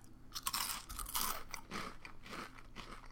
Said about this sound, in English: All right, now we're going to try Flaming Hot Cheetos.